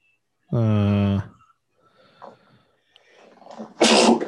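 A single sharp sneeze bursts out near the end, preceded by a sustained voiced tone and faint, scattered murmuring.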